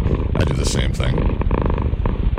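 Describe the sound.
A cat purring, a loud, steady, rumbling vibration that runs without a break through the whole moment, with a fluttering rhythm to its texture.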